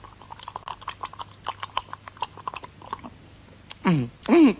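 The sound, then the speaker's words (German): Wet, rapid lapping and smacking as someone laps up a lake of cherry liqueur: many quick licks in a steady run, then two short voiced murmurs. “Und jetzt werde ich den ganzen schönen See aufschlecken.”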